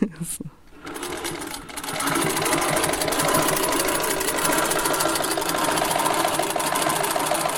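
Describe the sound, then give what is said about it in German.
Treadle sewing machine stitching fabric: after a few quieter, irregular sounds at the start, a rapid, steady mechanical clatter sets in and runs evenly to the end. “Das ist bei so einer Drehtnähmaschine am Anfang immer so ein bisschen die Herausforderung.”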